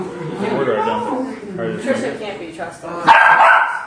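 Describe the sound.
A dog barks in a few sharp bursts mixed in with people talking, with the loudest barks coming near the end.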